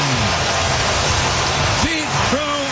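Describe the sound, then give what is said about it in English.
Baseball stadium crowd roaring for a leadoff home run in the first inning, a dense, loud, steady roar with a voice talking over it. “Strong leads off the first inning with a long home run, his 34th of the year. Listen to this crowd.”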